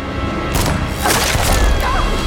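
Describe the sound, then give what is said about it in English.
Rifle shot fired in a scene from the 2023 Hunger Games film The Ballad of Songbirds and Snakes: a loud, sharp crack followed by a heavy, rumbling crash within a dense, continuous soundtrack. “He grabs his rifle from the ground and holds it up at the ready. Lucy Gray darts behind some trees in the distance. Corio fires.”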